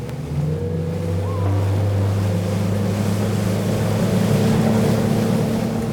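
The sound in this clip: A motorboat engine throttles up, a low droning hum with steady harmonics that grows slightly louder early on, mixed with rushing water and wind noise.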